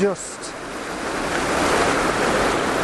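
A waterfall in Scotland gives a steady, full rushing roar of falling water that runs unbroken throughout, with a brief bump at the very start.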